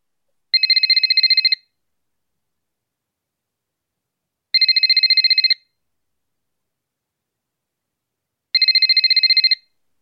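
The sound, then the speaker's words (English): Telephone ringing after a number is dialed: three evenly spaced electronic ring bursts, each about a second long, separated by long silences. “Ring him. I'll dial his number now.”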